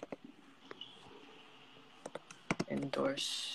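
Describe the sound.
Typing on a computer keyboard: scattered faint key clicks build into a quicker, louder flurry of taps near the end, with a faint voice murmuring underneath.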